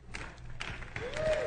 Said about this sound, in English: Do you notice how there's only a few people clapping?